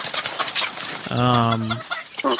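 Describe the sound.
Roosters in a barn cluck and squawk, with one drawn-out, harmonic squawk in the middle, while someone talks over them.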